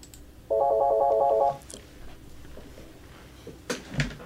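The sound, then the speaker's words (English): A telephone ringtone signals an incoming call: one burst of rapidly pulsing electronic tone lasting about a second, then near quiet with a few faint knocks near the end. “Looks like we're getting another caller.”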